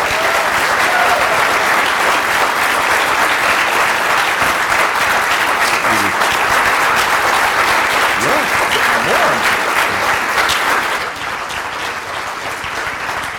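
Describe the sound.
Sustained applause from an audience welcoming a speaker to a religious service with Torah readings: a dense, even wash of clapping that holds steady for about eleven seconds, then eases slightly lower but keeps going.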